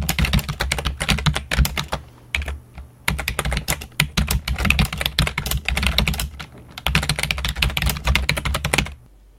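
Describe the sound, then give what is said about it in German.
Mechanical keyboard keys clack loudly under fast typing, in three dense bursts of keystrokes separated by brief pauses; the clicks sound crisp and solid rather than hollow and rubbery. “Das Klacken der Tasten ist dabei keineswegs mit dem plastikartigen Klackern von billigen Gummimembrantastaturen zu vergleichen, die im Gegensatz dazu eher nur hohl klingen.”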